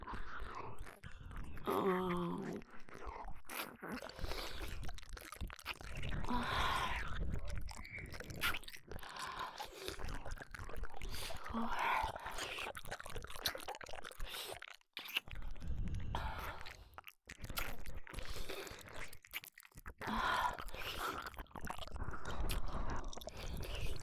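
Someone eats food close up, with wet, continuous chewing and biting and occasional crunches over a long stretch, broken by a couple of brief pauses.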